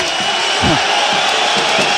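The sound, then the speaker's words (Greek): Spanish basketball fans applaud during a Valencia versus Panathinaikos game. Dense crowd noise and clapping run steadily throughout, with a man talking over it. “Χειροκροτούν οι Ισπανοί φίλαθλοι.”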